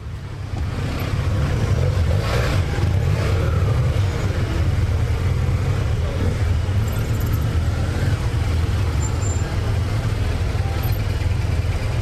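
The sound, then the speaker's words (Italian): Street traffic in Palermo, a continuous low rumble of engines and tyres that holds steady throughout, with no single vehicle standing out. “abbiamo proprio un estratto di un po' di traffico palermitano, ve lo facciamo ascoltare”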